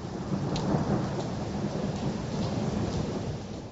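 Steady rain falls through the night over an earthquake-hit area, a dense, even hiss of drops that holds at a constant level for the whole stretch with no voices.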